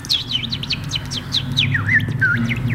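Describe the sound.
A voice imitates a small bird's chirping with many quick, high, sliding chirps in a steady run, heard over a constant low hum.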